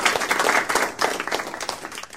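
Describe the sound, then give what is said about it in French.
Audience applause from a crowd, dense steady clapping that fills the whole stretch at a moderate level without voices over it. “On applaudit Christine Bard pour nous avoir permis de porter des pantalons.”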